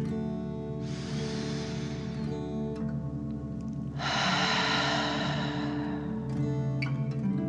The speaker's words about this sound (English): Let's take another 3 deep dragon breaths. Deep breath filling up your belly, in and out.